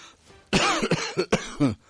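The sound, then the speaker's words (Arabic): A man, the duty news announcer, coughs a few times in harsh, quick bursts. The coughs are loud and heard alone. “فلا يجد المذيع المناوب إلا أن يكح، يعني يسعل.”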